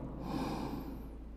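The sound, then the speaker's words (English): A single deep inhaled breath, one steady, quiet airy rush lasting about a second and a half, with no talk. “take three deep breaths with me. Inhale.”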